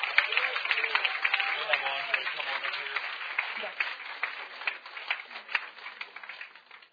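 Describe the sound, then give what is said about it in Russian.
Church audience applauding during a service, many hands clapping steadily with voices heard alongside, the clapping thinning slightly toward the end. “Let's just give the Lord a hand. Давайте воздадим. Thank you, God. Похлопаем ему, да?”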